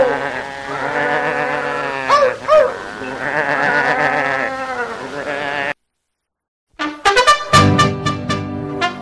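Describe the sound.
A flock of sheep bleating: many loud, wavering, overlapping bleats that break off abruptly, then a short silence before more loud harmonic calls.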